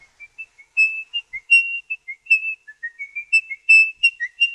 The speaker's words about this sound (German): Sein häufiges Pfeifen, nervös, wenig perfekt, immer wieder abgebrochen.